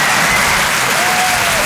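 An audience applauds, a dense, loud, steady wash of clapping hands that lasts the whole short stretch without a break, with no speech over it.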